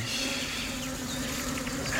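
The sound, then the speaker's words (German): Buzzing of many bees swarming in a meadow, a dense, steady drone with a bright, wavering hum that holds at an even loudness throughout, with no voices over it. “Wo so viele Bienen sind, kann Aristaios nicht weit sein.”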